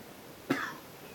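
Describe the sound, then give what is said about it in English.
A single short cough during a quiet meditation sitting, faint and alone against a soft, low background hush. “this other cough, this great sympathy for person who's coughing.”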